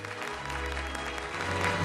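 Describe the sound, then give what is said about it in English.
Applause from diners in a posh restaurant who stand up and clap, a dense, steady wash of many hands that stays even throughout, with a low hum underneath. “The other diners all get to their feet and applaud.”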